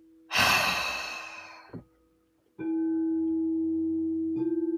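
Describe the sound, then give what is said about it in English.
A long, breathy exhale, like a deep sigh, during a guided meditation, followed after a short pause by a steady, sustained humming tone that runs to the end. “Breathe in. Exhale.”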